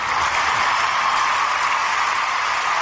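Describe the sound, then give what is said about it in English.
A studio audience cheers and applauds in a dense, steady, loud roar of clapping that holds unbroken throughout. “that's our studio audience there cheering us for our. I liked it. I liked it. We cut them off really well. They really responded to the lights. I turned the applause light off and they just shut up.”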